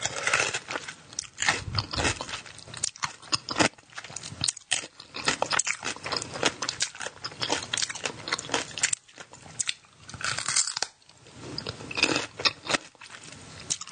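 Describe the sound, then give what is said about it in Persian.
A woman eats pickled cucumbers from a jar: loud, wet crunching bites and chewing repeat steadily throughout, with no talk. “مثلا این خانومه میاد یه قوطی خیارشور باز میکنه شروع میکنه به خوردن.”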